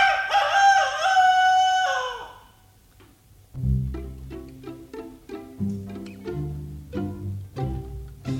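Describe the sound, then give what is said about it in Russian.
A rooster crows outside a window, one loud, drawn-out crow of about two seconds, then a brief quiet gap before a series of short melodic tones. “За окошком снова прокричал петух.”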